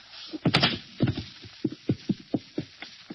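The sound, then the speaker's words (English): A gunshot in a radio drama: a single sharp, bright crack near the start, followed by a run of dull, evenly paced thuds. “Ellery, what was that? That sounded just like a shot.”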